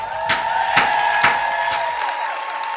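A church audience across several locations cheers and applauds as two pastors are welcomed to the stage, a dense roar of clapping and whoops over a steady held tone.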